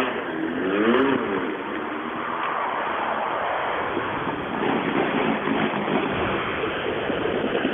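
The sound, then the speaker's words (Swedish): Loud, steady engine roar from an orange Opel Corsa rally car, mixed with a rushing, wind-like noise that continues without a break and has no talk over it. “jag ser en orange Opel Corsa, tror jag att det är där borta.”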